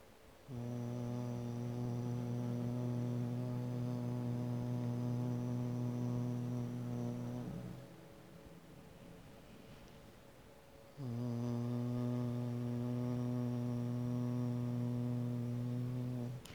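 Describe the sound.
Bhramari bee-breath humming: two long, steady, low-pitched hums with a pause between them, each held evenly and buzzing like a bee.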